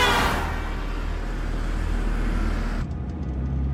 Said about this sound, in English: Now glimpses show James's SUV traveling through the city.